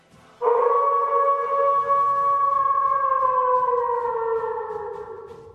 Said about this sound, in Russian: Раздался волчий вой